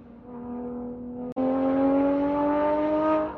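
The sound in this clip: Supercar engine accelerating hard, a loud harmonic drone climbing in pitch, cut by a brief break around a gear change before it surges on and climbs again.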